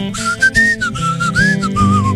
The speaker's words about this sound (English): It's a whistle along, okay? You want to participate? Oh, all right. Here's your part. It goes like this.